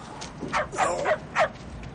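A dog near a car scrapyard gives a few short, high, yipping whines of moderate loudness over faint background noise.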